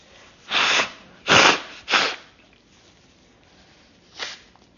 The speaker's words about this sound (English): Excuse me one second, I need a tissue.